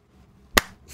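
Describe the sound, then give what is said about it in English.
A single sharp, crisp slap sounds as a scrotum is smacked onto a hand to make a clap. It is a lone snapping hit in otherwise near-silence, with a faint rustle just before it. “That was the sound of me slapping my scrot on my hand to clap.”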